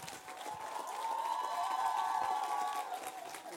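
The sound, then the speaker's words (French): An audience ovation: dense, steady applause mixed with cheering, swelling slightly in the middle and holding loud throughout. “On peut leur faire une ovation.”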